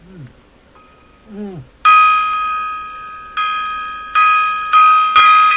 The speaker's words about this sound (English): more gong. The gong, bang the gong.